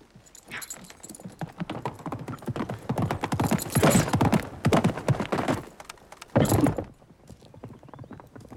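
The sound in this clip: Hooves clip-clop as a horse is ridden out, its rider carrying a bucket: many quick, uneven hoofbeats that grow louder through the middle, then cut off near the end, leaving a faint tail.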